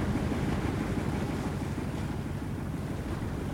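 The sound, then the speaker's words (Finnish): Restless sea waves surging and splashing over a boat's bow, a steady loud rush of water mixed with buffeting wind noise that continues without clear breaks. “Meri kohisee rauhattomana. Vettä roiskuu keulan yli.”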